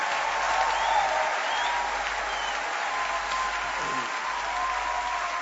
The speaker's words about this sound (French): Acclamons le Seigneur. Que Dieu soit béni.